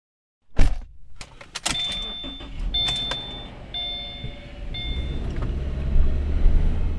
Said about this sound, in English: So I'm driving around in my neighborhood, and there are just a ton of potholes.